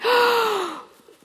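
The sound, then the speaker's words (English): A deep breath drawn in sharply and then held: a single loud, breathy rush with a faint voiced tone that falls in pitch over under a second, followed by near silence. “Nice big breath, and we'll hold it. Ready? One, two, three.”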